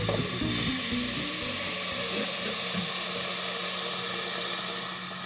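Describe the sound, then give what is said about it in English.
Water runs into a pot to boil for pasta, a steady hissing rush that holds evenly for several seconds before easing slightly at the end. “we have to boil some water to cook the pasta. So let's do that. So grab your pot. We'll fill that up.”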